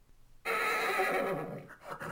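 A horse neighs: after a moment of quiet, a single whinny bursts in and holds, wavering, through to the end.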